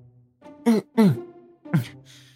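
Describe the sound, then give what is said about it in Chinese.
A man clears his throat in three short, gruff voiced bursts, with a faint breathy sound after them. “眼看着到了清风殿，他清了清嗓子喊道”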